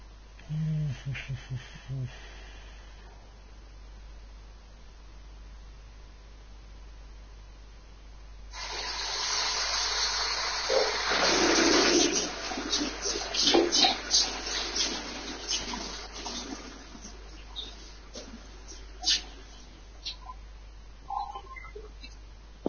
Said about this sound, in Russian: Страшные звуки. Это была раковина.